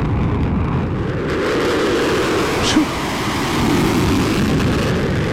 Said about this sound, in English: it looks to be like a fighter jet that's got his afterburners on. It shows him blowing up something blowing up.